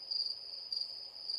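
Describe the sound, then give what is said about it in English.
Crickets chirping in a steady, high-pitched trill that pulses slightly, heard alone with no voices. “Are those crickets?”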